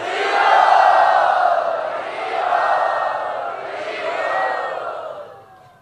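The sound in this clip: A large crowd chants loudly together to welcome guests at a Krishna devotional kirtan gathering, the mass of voices swelling three times in long waves before fading at the end.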